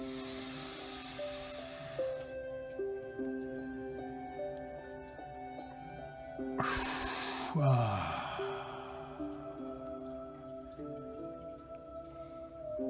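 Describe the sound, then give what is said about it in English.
Deep breathing during a guided meditation, one slow airy breath standing out clearly over soft, sustained tonal music, with a fainter breathy stretch near the start. “Three breaths in, begin with one.”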